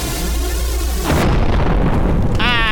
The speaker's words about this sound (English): Hello, I'm a flower. I would like to explode. Not before I explode you first. Bazooka!